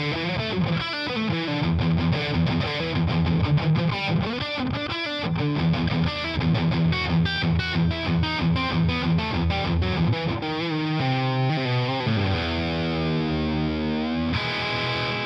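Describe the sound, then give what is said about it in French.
An electric guitar plays through a saturated 1x10 amp head, with crunchy distorted riffs mixing picked single notes and chords, then sliding, bending phrases toward the end. It plays alone with no talking. “Et suffisamment de saturation pour faire respirer votre jeu. Donc une tête beaucoup plus polyvalente qu'il n'y paraît”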